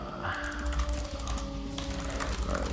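Soft typing on a computer keyboard, with many quick, faint clicks over a steady low hum.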